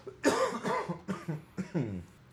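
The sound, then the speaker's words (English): A person coughing: a rapid run of several harsh, throaty coughs with a voiced edge, coming in short uneven bursts at moderate loudness. “I still have a bit of a cough.”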